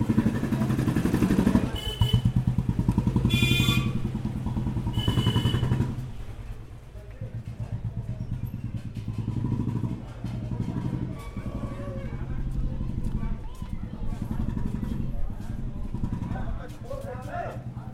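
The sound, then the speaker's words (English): Street traffic in Varanasi while walking toward the Golden Temple: motorcycle engines rev and pass, horns and clatter mix in, and voices talk throughout, loudest at the start before settling into a busy, continuous hum. “we are currently walking through the streets of Varanasi on the way to the Golden Temple. These are the sounds.”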